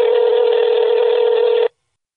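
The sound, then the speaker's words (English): A telephone ringback tone, heard while a call waits to be answered, sounds as one steady, continuous buzzing tone for under two seconds, then cuts off cleanly into silence. “the sound that you hear when you are making a call to someone else and their phone is ringing and you're waiting for them to answer. Nowadays, that typically sounds something like this.”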